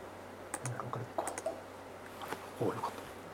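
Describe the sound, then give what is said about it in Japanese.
Computer keyboard keys clicking as the Windows key and G key are pressed together, a few sharp, light taps with short gaps between them, alone over a faint, steady background hiss. “ここでですね、 Windows キーと G のキーを押すと、”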